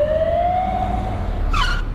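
An ambulance siren wails as a steady, loud tone that climbs slightly in pitch, with a brief, higher, harsher burst near the end; no one speaks.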